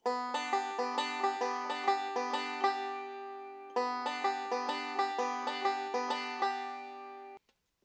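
A banjo plays a Scruggs-style swing backup lick on open strings, picked with thumb on the fifth string and fingers on the first and second, a bright, even run of plucked notes stated twice, the second time ending in a ringing fade.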